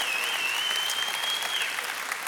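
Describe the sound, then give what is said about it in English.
Steady applause from a church audience welcoming guests during a worship service, a dense, even wash of clapping that lasts the whole clip, with no talk. “So can we right now, every campus, put your hands together and welcome all of our guests in the church family.”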